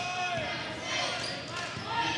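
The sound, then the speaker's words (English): Basketball dribbled during a game in the third quarter: a few hard bounces land under a steady wash of voices and crowd noise. “dribbling with pace down the right side of the lane”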